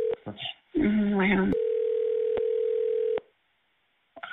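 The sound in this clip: Telephone dial tone after a caller's line is disconnected: a steady, single-pitched hum lasting about a second and a half, following a short burst of voice and cut off abruptly before another voice begins.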